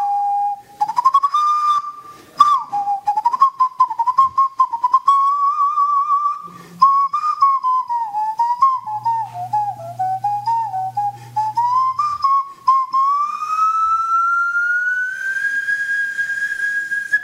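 A whistle-like tone is made by blowing across the top of a glass bottle, like panpipes. One sustained melodic line wavers up and down in pitch for about seventeen seconds and climbs higher near the end.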